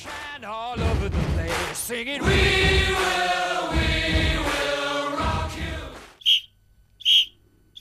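A referee's whistle signals the end of a match with a few sharp, high blasts that come right after a stretch of loud music.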